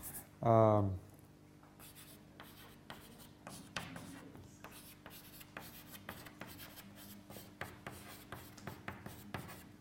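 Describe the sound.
Handwriting strokes during a lecture: many short, soft scratchy taps and strokes in an irregular rhythm, led by one louder squeaky stroke near the start.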